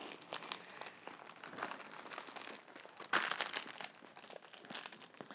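A plastic folder crinkles as luggage labels are slipped inside, giving continuous soft rustling and crackling with a sharper, louder burst about midway.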